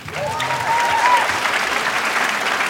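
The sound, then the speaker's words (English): A live audience at a show in Montreal claps and cheers for a letter writer. The dense, steady applause is lifted briefly near the start by a single sliding whistle. “Let's give it up for Hannah.”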